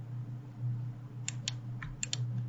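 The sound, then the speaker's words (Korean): A few faint, quick clicks from a computer keyboard and mouse as the Ctrl key is held and points are selected, loosely spaced over a steady low hum. “제가 여기다가 컨트롤 누르고, 여러 개 점을 찾아서 눌러보도록 할게요.”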